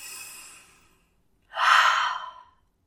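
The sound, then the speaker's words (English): A deep belly breath: a soft, airy inhale followed after a short pause by a longer, louder exhaling sigh that fades out, heard alone. “And not just breathe from your chest, like take a really deep belly breath.”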